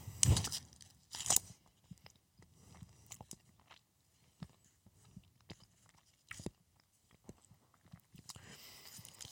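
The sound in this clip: A chocolate sweet is bitten with two sharp, crunchy bites. A long stretch of quieter, irregular chewing and crunching follows, with no talk.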